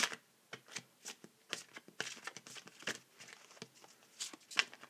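Tarot cards are shuffled in many quick, papery riffling bursts with soft flicks and slaps, irregular in rhythm and moderately loud, with no talk.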